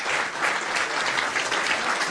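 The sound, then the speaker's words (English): Audience applause for a member of the first Tyrone team to win an All-Ireland vocational schools final, a dense, steady wash of clapping with no voices over it. “A big round of applause for Brian Moss,”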